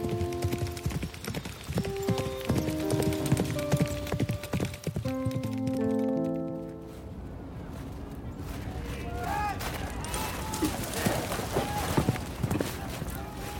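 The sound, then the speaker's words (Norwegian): Galloping horse hooves clip-clopping fast and steady as a rider races to catch up with a courier, following an opening passage of music, with a man's voice talking over the rhythmic hoofbeats. “rir Hans Rustad av gårde med en fransk kurer så fort han bare kan for å ta igjen Napoleon”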